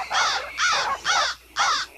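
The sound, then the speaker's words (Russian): A frenzied crow caws in a village, giving four harsh, raspy calls in an even, steady rhythm. Each caw is loud and of similar length, with short gaps between them and no voices. “Обезумевшая крава каркала так, словно наступил конец света.”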